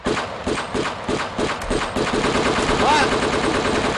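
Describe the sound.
Gunfire in a shooting video game: a fast, steady stream of sharp repeated shots, loud and continuous, with other game sounds mixed in.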